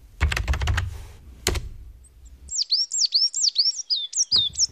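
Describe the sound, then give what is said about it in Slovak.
A tit sings a recorded call of bright, repeated two-note chirps in a quick, steady series. A short burst of clattering, keyboard-like taps comes before it. “Počuješ to, činčirin? To je síkorka. Keď takto spieva, o 2 týždne príde jar.”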